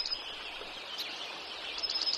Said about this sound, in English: wrens, blackbirds, all sing at once. The songsters attempt to lure females into their territory and warn other males away.